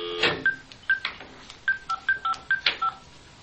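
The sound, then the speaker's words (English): Telephone keypad dialing tones: a rapid series of about a dozen short, clipped beeps at shifting pitches, keyed in an uneven rhythm and heard alone without voices. “Now it's a regular phone dial tone. Sweet. So I'll dial”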